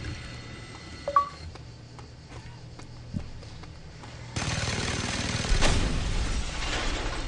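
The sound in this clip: Sustained rapid minigun fire in a video game breaks in partway through as a dense, continuous, loud roar, with a brief surge near the end, after quieter game sounds.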